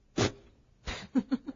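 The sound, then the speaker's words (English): A voice imitates a child's asthmatic cough: one sharp, harsh burst, then a pause. A longer rasping cough follows, ending in three short, throaty hacks. “the child was coughing. And when he went, he came in the room, and he went like”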